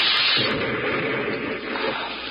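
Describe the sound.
Hand grenade explosion: a loud, dense roar of blast noise fills the whole clip, holding steady and easing off only slightly toward the end.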